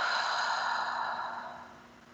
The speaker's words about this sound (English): we're going to start by taking a deep breath together. So let's inhale and let it out.